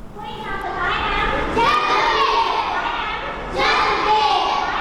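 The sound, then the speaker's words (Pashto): Children's voices at a school for working children in Peshawar: several young voices speaking and calling out together in loud bursts, with brief dips between them. “دا اوازونه د خواري مزدوري کوونکې ماشومانو لپاره په پیښور کې د رڼا چایلډ ویلفیر فاونډیشن په نامه خوانځي دي.”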